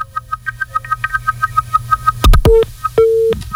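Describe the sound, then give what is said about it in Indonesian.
Telephone line tones after a caller's line is cut off: a rapid, regular train of short beeps, then a few sharp clicks and two loud, steady tones. “Justru diputus ya. Oke, dicoba lagi silahkan line teleponnya”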